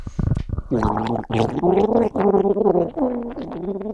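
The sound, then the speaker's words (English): A person gargling water as a guessing game, the gargle voiced into a wavering, pitched tone: a few loud bubbling bursts with brief breaks between them, rising and falling like a hummed tune. “Put in as much as you can gargle with.”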